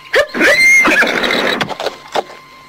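A horse neighs in one loud, shrill, quavering whinny, followed by a few short, sharp knocks.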